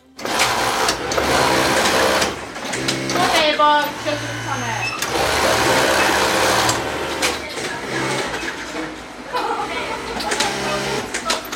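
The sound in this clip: Sewing machines whirring in a garment workshop from the film Jeunesse, a busy mechanical rattle that surges and eases over several seconds while people talk over it.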